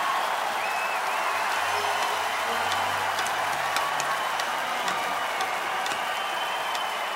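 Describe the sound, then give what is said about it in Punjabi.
Loud applause from an audience, a dense, even wash of clapping that holds steady from start to finish. “ਆਪਾਂ ਜ਼ੋਰਦਾਰ ਤਾੜੀ ਮਾਰੋ ਤੁਹਾਡੀਆਂ ਦੁਆਵਾਂ ਕੰਮ ਆ ਜਾਊਗੀਆਂ”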